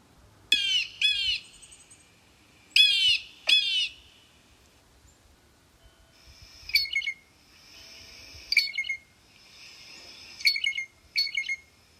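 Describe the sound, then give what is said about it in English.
Blue jay calls: harsh, rasping jeers come in quick clusters, followed by a series of ringing, whistled calls at intervals, loud and clear over a quiet background. “Although blue jays are known to have quite a repertoire, a couple calls are quite common. Here they are.”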